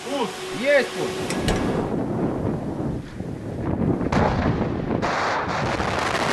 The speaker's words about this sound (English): Both sides are still upgrading nuclear-capable missiles like this one, tested recently in Russia.